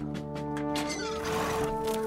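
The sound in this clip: An unbroken, ill-tempered stallion neighing: a single drawn-out, fairly faint whinny that rises out of a steady tonal background.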